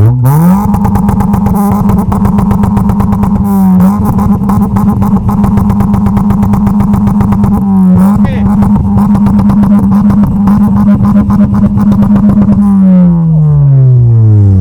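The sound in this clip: A car engine held at high revs for an exhaust sound-level measurement at a car meet: a loud, steady, rasping drone that dips briefly twice, then the revs fall away near the end.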